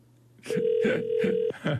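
An unanswered outgoing telephone call gives one steady, mid-pitched ringback tone about a second long, with brief bursts of other sound around it.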